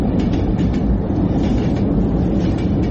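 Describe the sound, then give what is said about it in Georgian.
A steady, loud rumble of a train running along a track fixed to a room wall, continuous and dense throughout, with no voices or gaps. “ამოთახში მატარებელი მიდის. კედლზე გაკრული ლიანდაგი უსასრულოა.”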